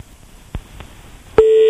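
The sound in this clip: A telephone busy tone sounds after the caller hangs up on a phone-in line: a couple of faint clicks, then a sharp click and a loud, steady tone that holds to the end.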